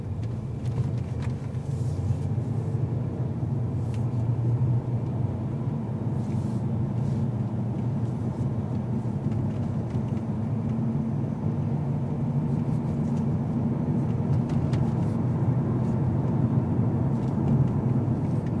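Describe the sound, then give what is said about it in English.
Car interior rumble while driving through a small town: a steady, moderately loud low-pitched road and engine hum that holds an even level for the whole stretch, with no talk over it. “we're going to drive a little bit through a small town. And enjoy the lights passing us by.”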